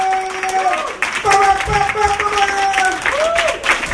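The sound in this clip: A stand-up comedy audience applauds a comedian, with steady clapping and loud voices whooping and cheering over it.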